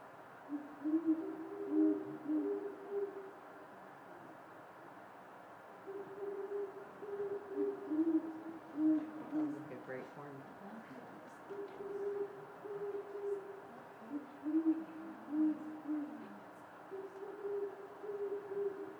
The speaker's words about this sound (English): So I think those are great horned owls.